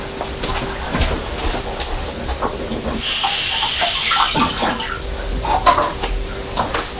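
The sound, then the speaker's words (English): Running tap water rinses a pitted apple, a brief bright rush of water in the middle lasting about a second, amid scattered clatter and light background noise. “I've taken the pips out of the apple. I'll just give it a rinse under the tap.”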